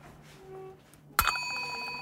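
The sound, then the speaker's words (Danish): A small broken bell with a spoon attached, struck once after a near-quiet start, giving a sharp clang followed by a bright, sustained metallic ring that lingers to the end. “Nej, det er en ødelagt klokke med en ske på”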